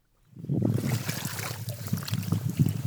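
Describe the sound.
People wading through wetland water make continuous sloshing and splashing as legs push through the shallows, a rough, rhythmic churn of moderate loudness that begins after a brief silence and keeps going to the end.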